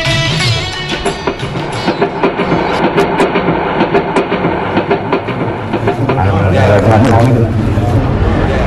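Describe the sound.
A train running on rails, used as a sound effect in a Malayalam radio drama: a loud, steady rumble with a regular clickety-clack of wheels over track joints throughout.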